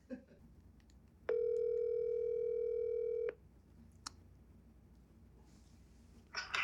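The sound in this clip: Telephone tone heard while placing a call, a single steady pure tone lasting about two seconds, followed by a couple of faint clicks on a quiet line.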